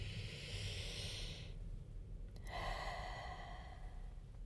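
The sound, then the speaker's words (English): A slow, deep breath: a long, airy inhale lasting over a second, a short pause, then a longer, steady hissing exhale, all alone over a low background rumble. “let's smile and take one last slow, even, deep breath.”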